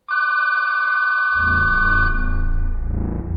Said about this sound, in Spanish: me sobresaltó el grito inesperado del teléfono. ¡Estaba sonando el teléfono!